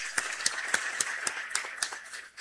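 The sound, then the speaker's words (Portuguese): Rhythmic clapping in unison welcomes and thanks a group of visitors, fairly faint, with evenly spaced beats that keep a steady tempo throughout. “Vamos dar uma salva de palmas, acolhendo e agradecendo a visita.”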